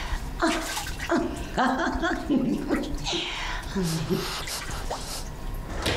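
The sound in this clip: Water splashes and sprays as someone is playfully soaked, with dripping and sloshing like a filling bath, while a voice talks over the wet sounds throughout.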